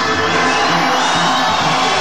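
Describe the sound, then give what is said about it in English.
A crowd at a live club night in an arena cheers with shouts and whoops, a dense, loud, steady roar that holds level for the whole stretch. “We got to say goodbye from here to our listeners back home. Give us a cheer.”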